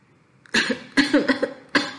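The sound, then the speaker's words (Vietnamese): A dry coughing fit comes from someone with a cold and fever after a bath, a few sharp, harsh hacks with short pauses between them, heard alone. “Triển Chiêu nghẹn ra một trận ho khan.”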